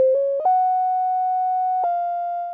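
A short melody on a pure sine-wave tone: two brief lower notes, then a long higher note that steps slightly down into a final held note, clean and steady, heard alone.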